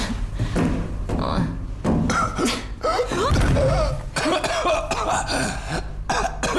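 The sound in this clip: A man is choking and coughing, unable to breathe, with repeated harsh coughs and strained gasping throat sounds over constant background noise. A voice speaks at times.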